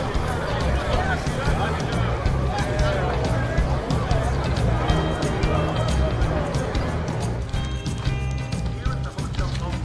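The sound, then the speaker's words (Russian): Crowd murmur from people gathered outside behind a fence, waiting for a bride to come out of a hotel. Dense, steady babble of many overlapping voices runs unbroken at an even level throughout. “Стоит мужчина в красной фуражке. Перед ним, немного дальше, перед ограждением, толпа людей.”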